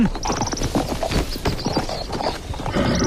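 Horse hooves clip-clop with many quick, uneven knocking beats that keep going throughout, loud and busy with no talking.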